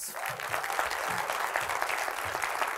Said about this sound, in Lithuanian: Pasitikime plojimais ir išgirskime jo istoriją.